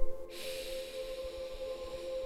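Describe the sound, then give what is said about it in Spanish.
A deep inhalation through the nose during a guided relaxation exercise: one long, steady, airy breath that begins after a short pause and lasts to the end, with a faint steady tone underneath. “Vamos a ir regresando, tomando una inhalación intensa por la nariz,”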